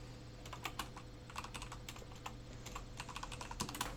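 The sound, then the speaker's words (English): Rapid typing on a computer keyboard produces many crisp, clicky keystrokes in an irregular, steady stream. No one speaks. “I'll actually type that on my computer. More clicky-clacks for the listeners.”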